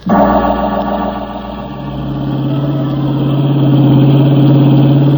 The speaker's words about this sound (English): The blue roadster gathered moisture on its windshield as I drove down the twisting bayou road.